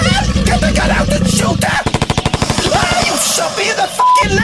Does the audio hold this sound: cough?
no